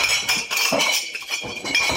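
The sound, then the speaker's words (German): Beer glasses clinking at the Oktoberfest in Munich: bright, ringing clinks come repeatedly in quick, uneven bursts over a continuous background hubbub. “Gläser klirren auf der Wiesn.”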